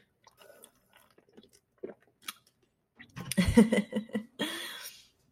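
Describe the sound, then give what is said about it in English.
A person drinking Dr Pepper soda: faint, scattered sips and small mouth clicks at first, then a louder cluster of gulps and swallows, ending in a short hiss. No one speaks. “A little ASMR of me drinking.”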